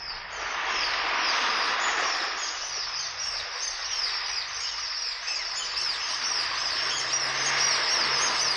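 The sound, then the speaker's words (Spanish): A flock of seagulls screeching in a dense, continuous, shrill chorus of overlapping cries at a steady, fairly loud level throughout, without voices. “Corona de gaviotas chillaban en derredor.”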